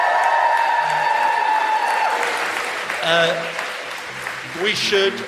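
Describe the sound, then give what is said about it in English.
An audience at a live show in Sheffield applauds and whoops. Steady clapping carries voiced whoops that grow louder near the end, with people talking over the noise. “Give yourself a big whoop.”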